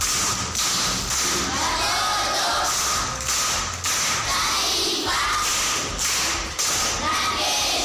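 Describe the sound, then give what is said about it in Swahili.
Applause from a group of children for a fourth-grade pupil who has just answered a question, dense steady clapping that carries through the whole stretch, with faint voices underneath. “Makofi kwa mjomba.”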